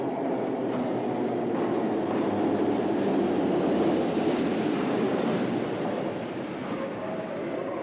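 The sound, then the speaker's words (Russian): A metro train arriving at a sparsely populated underground station platform, heard as a heavy, continuous rumble and roar with faint clattering that holds steady for several seconds, easing slightly toward the end, with no voices. “К малолюдной платформе прибывает поезд.”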